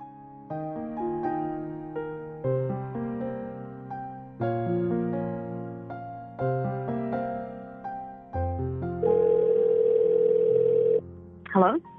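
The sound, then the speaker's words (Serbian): A telephone call being placed to someone. Steady electronic tones repeat in regular blocks about every two seconds, then give way to a longer, louder sustained tone with a hiss, and a brief voice cuts in at the end. “Sada ćemo je pozvati telefonom.”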